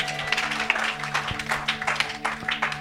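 Congregation applause at a church service, as scattered, uneven bursts of clapping over a steady, held low musical tone.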